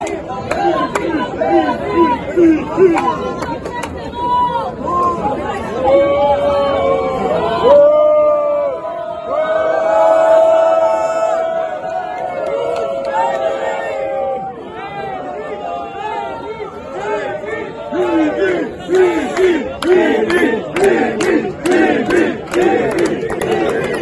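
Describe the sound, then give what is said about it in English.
A large crowd at the Western Wall of the Temple Mount cheers and chants for Netanyahu as Israel's defense minister visits. Many loud, overlapping voices shout throughout, with a calmer middle stretch and rhythmic chant-like bursts toward the end. “The people there all cheered for Bibi. That's referring to Benjamin Netanyahu.”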